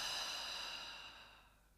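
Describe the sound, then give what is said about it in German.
A long, deep breath out through the mouth during a guided healing meditation: a soft, airy hiss that slowly fades over about two seconds. There is no voice. “Noch einmal so, atme tief in dein Herz ein und lösend über deinen Mund wieder aus.”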